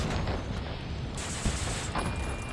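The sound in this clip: Volley of gunfire as a line of shooters opens fire together: a dense, continuous crackling rattle of shots with a couple of sharper reports standing out, fairly subdued overall.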